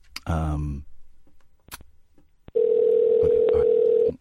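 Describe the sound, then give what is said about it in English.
A steady telephone dial tone sounds while a call to America is being placed. The loud, even hum lasts about a second and a half and follows a brief voice and a couple of faint clicks. “Let's phone America.”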